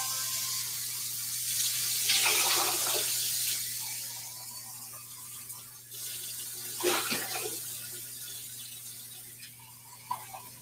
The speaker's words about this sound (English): I'm gonna rinse out my milk steamer really quick.